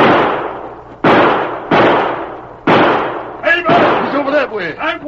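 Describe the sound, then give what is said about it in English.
Gunshots in a Western shootout, firing that knocks a gun out of a man's hand: four loud, sharp bangs, each with a decaying crack, come at uneven intervals. Then men's voices shout. “He shot the gun right out of my hand.”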